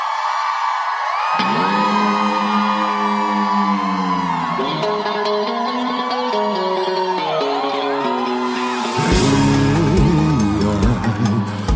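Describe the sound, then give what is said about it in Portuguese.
Crowd cheering and whooping at a live event, with loud, sustained voices that carry on throughout and swell into a louder burst near the end. “Faz barulho quem gostou.”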